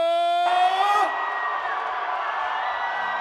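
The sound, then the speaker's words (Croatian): A large crowd screams and cheers for a singer of Balkan tavern folk hits at a packed concert. A loud, sustained roar with shrill whistles and shouts follows a brief held shout at the start. “Da vas čujemo, najveći vrisak za naše kralja”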